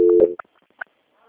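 Telephone tones play while a call is being transferred: a steady tone, then two short separate beeps, and finally a faint tone as the line goes quiet.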